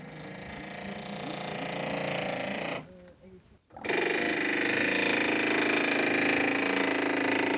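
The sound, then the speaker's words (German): Pneumatic hammer working a dark grey slate slab, a loud, fast, continuous rattling clatter that cuts out for about a second midway, then resumes just as steady and harsh. “Mit Noise-Canceling-Kopfhörer und Schutzbrille ausgestattet, bearbeitet sie eine dunkelgraue Schieferplatte mit einem Drucklufthammer.”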